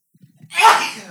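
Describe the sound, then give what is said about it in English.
One loud, sharp sneeze bursts out after a few faint catching breaths and trails off quickly. “Sneeze.”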